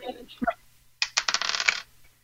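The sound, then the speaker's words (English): Dice rolling on a table during a tabletop game: a quick burst of clattering, rattling clicks that tumble together for under a second, then stop. “Okay, so now you have to double those dice. So now you're rolling.”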